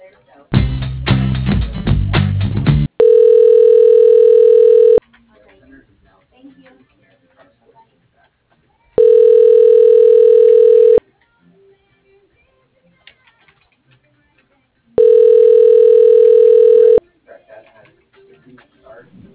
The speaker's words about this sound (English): Yeah, I can transfer you to his voicemail.